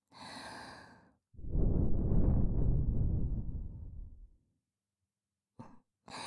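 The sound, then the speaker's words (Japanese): In a close-up ear-teasing roleplay, a long, soft, breathy exhale is blown into someone's ear, rising and then slowly fading over a few seconds. A brief voiced sound comes before it and short breathy fragments follow. “耳に息吹きかけられただけでビクビクしてるんですか？”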